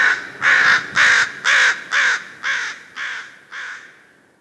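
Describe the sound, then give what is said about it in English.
A crow gives seven harsh, evenly spaced caws in a steady rhythm. The calls are loud at first and grow gradually fainter toward the end. “Crows give a cawing sound,”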